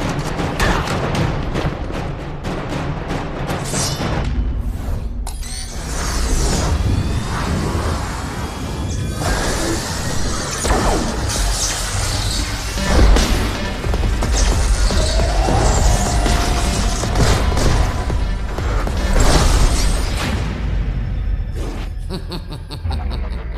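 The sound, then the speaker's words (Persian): Gunfire aimed at two targets: a loud, dense, continuous barrage of shots and booms with mechanical clatter that fills almost the whole stretch, with no voices. “به جفتشون شلیک کنید.”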